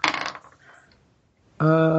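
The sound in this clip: Dice scooped up and rolled during a tabletop role-playing game make a brief, bright clatter that quickly trails off into near silence before another steady sound begins.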